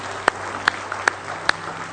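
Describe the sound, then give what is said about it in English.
Church audience claps in praise, four loud, crisp claps landing at an even, steady beat over a quiet background hum. “Give him one more hand clap of praise tonight if you love him.”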